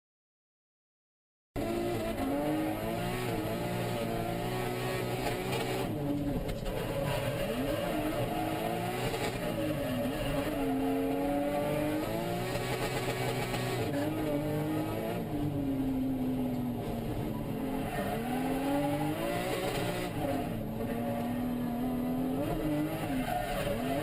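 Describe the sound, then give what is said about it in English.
Nissan Silvia S13 (SIL 80) driven at Sazan Circuit in 2012, in footage of a crash: after brief silence, a loud engine revs continuously with its pitch repeatedly climbing and dropping. “2012 or 2013 in my S13. This was the SIL 80. Yeah, this was the SIL 80, because I'll get into why that car's not around anymore. So we're just going to play the video”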